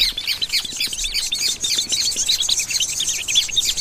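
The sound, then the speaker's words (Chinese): Hungry, newly hatched nestlings chirping for food: a dense, continuous chatter of high, thin tweets and cheeps that keeps up steadily throughout. “刚出壳的小宝贝们已经饥肠辘辘，不断叽叽喳喳地表明这一点。”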